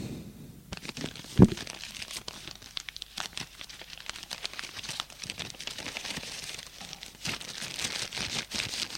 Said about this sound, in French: Le vieux prend de sa poche une enveloppe, l'ouvre et prend des billets.